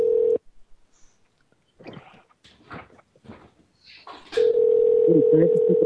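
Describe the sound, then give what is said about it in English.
A telephone ringing tone during a call, a steady tone that cuts off into quiet clicks and rustles, then returns and holds with a voice over it. “This is part of the call where the phone rings.”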